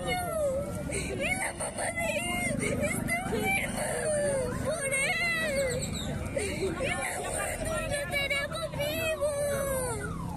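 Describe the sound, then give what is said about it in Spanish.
An eight-year-old girl cries and pleads, her tearful voice wavering and breaking into sobs, with other voices babbling around her. “La que llora y suplica es una niña de 8 años, hija de un arrestado durante el régimen.”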